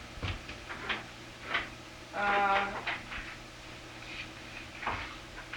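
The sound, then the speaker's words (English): A door creaks open with a brief, squeaky, whining hinge sound among faint knocks and a low steady hum. “now I'm going to open the door again.”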